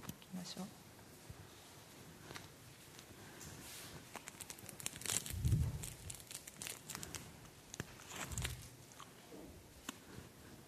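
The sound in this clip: Faint crinkling, rustling and soft chewing as an audience eats communion bread together during a church service, scattered small sounds spread across the whole stretch without any clear rhythm.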